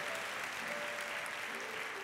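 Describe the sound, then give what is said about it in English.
A church audience claps in praise, a dense, steady wash of many hands sustained evenly through the whole stretch with no break. “Give the Lord a hand clap of praise. Let him know we're glad to have him in the family of God.”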